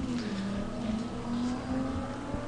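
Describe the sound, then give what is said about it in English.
Engine of a 1969 Charger race car accelerating in a racing video game, a fairly quiet, steady buzzing drone with a slight wobble in its tone and no voices. “Okay. Let's finish in the top 3% this time. All right, open it up. Accelerate.”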